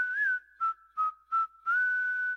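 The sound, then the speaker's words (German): A person whistles a simple tune in a clear, pure tone. One long note is followed by three short detached notes and then another long held note, all steady in pitch and heard alone. “Wer bei der Arbeit pfeift”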